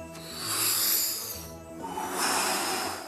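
A person breathing in, loud and airy, in two long swells of hissing, rasping air with a slight snort-like edge, and no talk.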